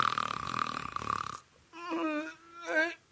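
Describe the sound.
A storyteller imitates loud snoring, voicing two long, rasping snores one after the other. Each is drawn out with a rough, buzzing tone and a short pause between them.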